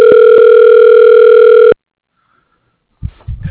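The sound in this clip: A telephone dialing tone on a phone line plays as one steady, loud, buzzing hum for under two seconds, then cuts off abruptly into silence before a few faint low rustles.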